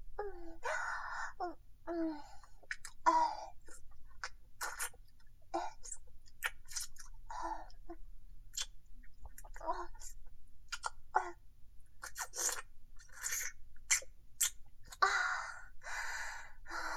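Wet licking sounds as tears are licked away: many quick smacks and mouth clicks in an uneven rhythm, mixed with soft breathy moaning vocal sounds.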